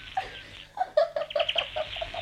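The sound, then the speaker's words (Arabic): Sparrows chirping in a series of short, bright, irregular chirps, fairly faint and alone. “الله كده يا دادا، خليتي العصافير تطير.”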